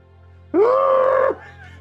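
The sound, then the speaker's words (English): A person screams into a shell: one loud, sustained voiced scream lasting under a second, its pitch rising briefly at the start, then holding steady before cutting off abruptly over a constant low hum. “Deep breathe, to scream into the shell.”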